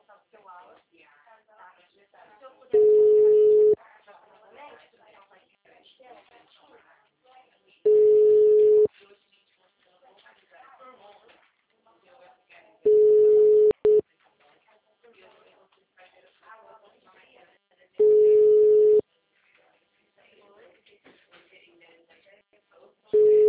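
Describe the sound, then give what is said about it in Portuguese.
A telephone line tone after a dropped call, a steady mid-pitched beep sounding in about one-second bursts five times at roughly five-second gaps, with a voice talking quietly between them. “a ligação caiu”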